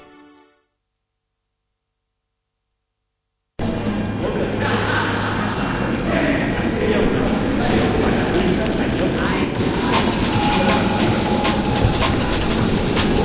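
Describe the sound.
A metro train in a station: after a brief silence, a loud, continuous rumbling and clattering of the train starts abruptly and holds steady to the end.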